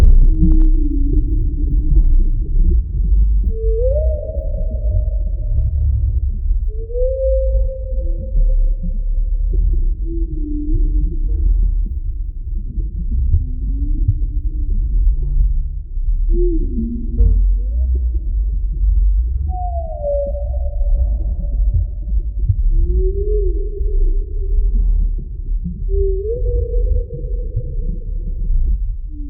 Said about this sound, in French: Il s'agissait bien sûr du chant des baleines au large de l'île de la Réunion.